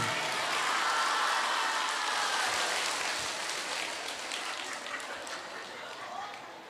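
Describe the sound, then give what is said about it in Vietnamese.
A long, loud round of applause for a Buddhist monk at a gathering: dense, steady clapping that holds strong, then slowly tapers toward the end. “một tràng vỗ tay thật lớn và thật dài cho thầy chúng ta nha”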